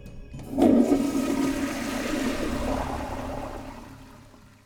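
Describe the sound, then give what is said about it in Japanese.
A toilet flushes in an internet café restroom: one sudden surge of rushing water that peaks quickly, then settles into a steady gurgling drain and fades gradually toward the end, with no voices. “それを便所に流した”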